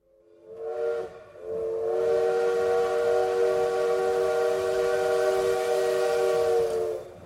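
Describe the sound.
A train whistle sounds at the railway station in Spitak on an autumn evening: a short blast, then a long sustained blast with a rich, steady harmonic tone that holds at one pitch before cutting off.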